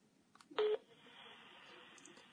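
A single short telephone keypad tone sounds as a number is dialed, then a faint steady line hiss continues afterward.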